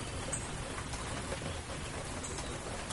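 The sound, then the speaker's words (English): Steady, heavy downpour of rain: a dense, even hiss of drops with no breaks or pauses from start to finish. “started coming down hard enough that it really shut that little bird up, didn't it? He was out here all confident when it was just a drizzle, but now that it's a steady downpour,”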